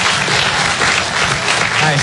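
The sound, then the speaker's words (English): An audience claps in steady, dense applause, a loud continuous patter of many hands without pause. “Clap if you're the clean one.”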